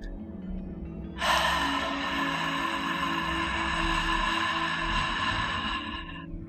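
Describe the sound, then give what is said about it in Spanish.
One deep breath let out slowly through the mouth during a calming meditation, a long steady breathy exhale of about five seconds over a soft low musical backdrop. “Una vez más, inhala profundo e intenta soltar el aire lento por la boca.”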